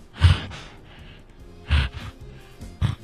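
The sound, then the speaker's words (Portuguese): A human voice imitates an alligator breathing: three heavy, breathy snorting exhalations separated by quiet pauses. “Esse é um jacaré respirando.”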